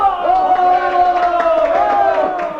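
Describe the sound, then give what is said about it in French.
An assembly gives an ovation in a 1956 stage comedy, a loud crowd of voices cheering together in a sustained, steady chorus from start to finish. “M. Beulemans, vous êtes nommé. L'Assemblée veut vous faire une ovation.”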